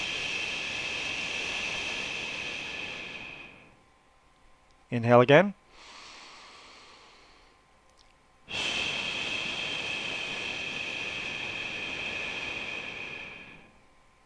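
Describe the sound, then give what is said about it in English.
Long exhaled 'shh' sounds made by a person during a deep-breathing exercise for the liver: two sustained hissing breaths separated by a short spoken instruction and a quieter inhale. “So it's a shh sound. Very simple. Take a deep breath. Exhale and shh.”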